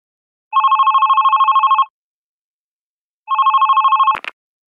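Telephone ringback on an outgoing call to a company office: two long warbling ring bursts separated by a pause, the second cut short by a sharp click as the line is picked up. No other sound is present.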